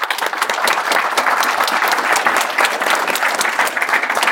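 Audience applause for a prize winner: a dense, steady round of many hands clapping that holds at an even level throughout, with no talking over it.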